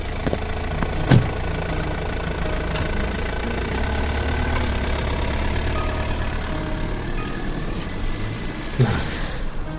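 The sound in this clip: A car engine rumbles low and steady as the car drives away. The motor runs at a fairly even level throughout, with two brief sharper knocks and no voices.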